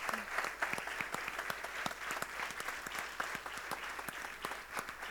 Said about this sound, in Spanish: Le damos un nuevo aplauso.